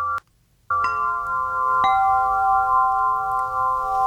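A sustained metallic instrument tone, a samafón played for therapeutic relaxation, rings with steady stacked harmonic partials, a brief strike, a short gap, then fresh strikes that swell into a loud, continuous shimmering drone with no talk.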